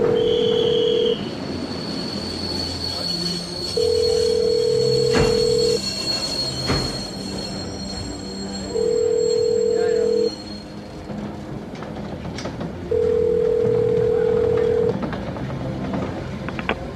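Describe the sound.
A telephone ringing after a number is dialed: four long, steady ring tones of even pitch separated by pauses of a few seconds, heard over a constant, noisy background.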